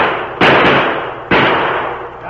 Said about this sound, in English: Stand aside. Let me get aim. Watch out! The sheriff's going to shoot!